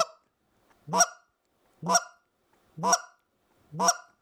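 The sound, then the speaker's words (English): A goose call blown to imitate a single goose clucking: a clipped note at the very start, then four short, sharp honking notes evenly spaced about a second apart, each standing alone against silence. “With a cluck, I mean, it's just a single goose just out in the field, on the water, doing whatever.”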